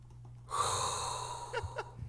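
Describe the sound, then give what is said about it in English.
A sharp inhaled breath, a quick gasp drawn in and held for about a second, then two short breathy puffs, all fairly faint and with no speech. “inhale a hot breath”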